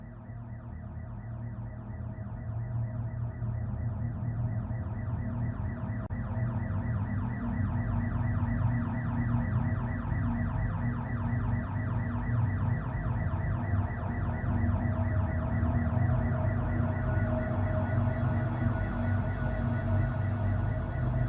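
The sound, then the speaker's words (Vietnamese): A security alarm blares after the alarm bell is pressed during a deadly robbery. The rapid, pulsing electronic warble continues unbroken and at a steady level throughout, with no voices. “có lẽ cô gái tội nghiệp kia đã kịp bấm chuông báo động”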